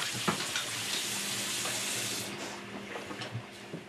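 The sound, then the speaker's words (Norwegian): Water runs from a tap as a girl washes before prayer. The stream hisses steadily throughout, with a few faint knocks and splashes and no talk. “Nå skal hun be. Først vasker hun seg.”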